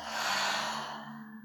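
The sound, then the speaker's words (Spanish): A deep exhale through the mouth, a long breathy rush of air that starts strong and slowly fades over about a second and a half. “Inhala profundo por tu nariz. Y por tu boca exhala soltando todo el aire.”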